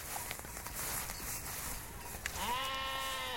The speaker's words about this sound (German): Langsam zieht die Herde weiter.